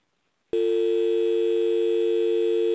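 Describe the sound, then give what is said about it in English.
Telephone line tone after the caller hangs up: a brief silence, then a steady electronic tone that starts abruptly and holds at the same pitch and loudness to the end. “Well, he hung up. Damn it, Domingo. Hey, wait, hang on. What? They can't hang up their phone either. It takes forever.”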